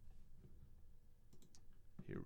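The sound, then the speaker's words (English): Typing on a computer keyboard: a few sparse, faint clicks of keys against a low murmur of voices, very quiet overall. “First thing comes up when I type a J.”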